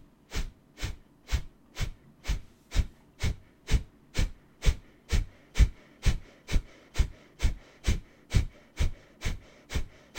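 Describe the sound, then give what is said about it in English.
Forceful Kapalabhati exhalations during a yoga class, done in a plank position: many sharp, even nasal breath bursts, about two per second, in a steady unbroken rhythm. “we're going to do Kapalabhati in this type of plank position. You can bring your knees to the floor if you need. Inhale and begin.”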